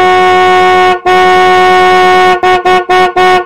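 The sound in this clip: A taxi horn sounds on a deserted road: two long, loud blasts followed by a quick run of short toots, with no voices.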